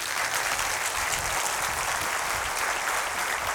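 Audience applause welcoming musician Petras Višniauskas on stage: an even, unbroken wash of clapping, fairly soft, that holds steady for the whole clip with no voices over it.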